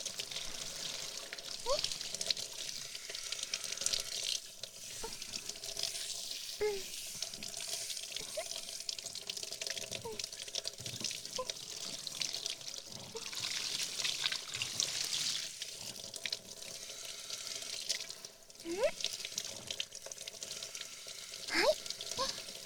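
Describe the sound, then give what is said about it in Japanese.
Steady running water rinses shampoo foam out of a person's hair at a sink. The flow is continuous and even for the whole stretch, with no talking over it. “泡はこれで全部流れましたよ。”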